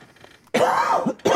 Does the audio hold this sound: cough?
yes